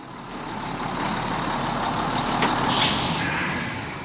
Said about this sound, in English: The bus is at the bus stop.